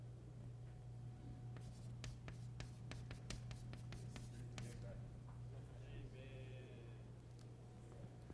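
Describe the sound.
A pen writing by hand, many quick, dry scratching strokes in an uneven rhythm over a steady low background hum, faint and close.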